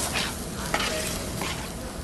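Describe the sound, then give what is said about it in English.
Ten pounds of shaved steak sizzle loudly in a frying pan while being stirred, a steady crackling hiss with brief scraping strokes of the utensil rising above it. “stirs up 10 pounds of shaved steak”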